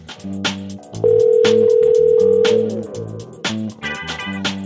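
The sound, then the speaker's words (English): A steady single-pitch telephone dial tone sounds while someone calls another person, holding loud and even for about a second and a half before cutting off, over a funky groove of bass, drums and horns. “So I'm going to dial him up right now.”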